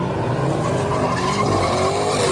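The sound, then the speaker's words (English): Tires squeal and engines roar as Challengers, Chargers, Mustangs and Toyota Supras do continuous donuts on a waterfront street. A steady, loud wash of tire and engine noise is topped by a thin squeal that rises near the end. “Challengers, Chargers, Mustangs, even Toyota Supras. All doing continuous donuts while the crowd records it for social media. Take this clip from San Francisco's waterfront a few weeks ago.”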